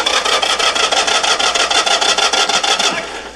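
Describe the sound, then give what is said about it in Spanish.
A pickup truck engine cranks without catching: a fast, rhythmic grinding churn of many even pulses that holds steady for about three seconds, then fades away. “Maldita sea. Nuestro jeep vuela en pedazos y su camioneta no arranca.”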